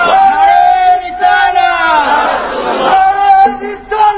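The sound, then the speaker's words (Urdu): A large crowd chants religious slogans together, loud sustained shouted voices surging in a few waves with little pause. “نعرے تکبیر، نعرے حیدری، نعرے رسالت.”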